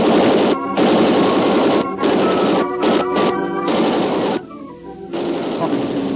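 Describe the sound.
A gunfire sound effect in a radio drama about contraband arms landed from a ship: loud, harsh, clattering bursts of rapid shots with brief gaps between them.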